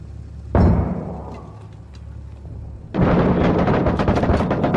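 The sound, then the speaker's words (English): A grenade thrown out of a window explodes in the video game Six Days in Fallujah, one sudden heavy boom that fades into a rumbling tail, followed by a loud, sustained crackling burst of noise. “Grenade! They just threw it out the window, I think.”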